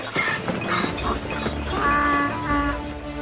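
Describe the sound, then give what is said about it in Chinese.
A startled donkey carrying a traveler cries out after a sudden attack in a video game, giving agitated, harmonic braying calls in uneven bursts of moderate loudness. “这突如其来的攻击，使得这位路过的旅客骑的驴子备受惊吓，惊慌乱窜”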